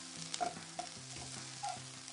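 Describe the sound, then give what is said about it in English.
Kale seasoned with black pepper being turned with tongs in a frying pan, with a faint, steady sizzle and a few soft clicks and scrapes as the leaves are moved around. “So what we're doing is we're turning our kale because we want it to get a little bit wilted”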